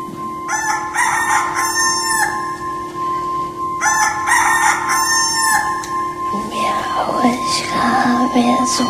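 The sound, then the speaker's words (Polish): A rooster crows twice, each a loud, long harmonic call with a rising then held shape, over a steady low hum, with more varied farmyard sound after the second crow. “Pieje kur.”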